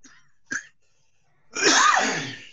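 A single sneeze blamed on allergies: a short, sharp intake of breath, then after a pause one loud, explosive, breathy burst that tails off.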